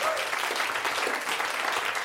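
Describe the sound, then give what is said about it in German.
A live audience applauds in a dense, even burst of clapping that holds at a steady loudness throughout, with a voice faintly audible beneath it. “Ein Applaus, die bulgarisch-türkische Freundschaft.”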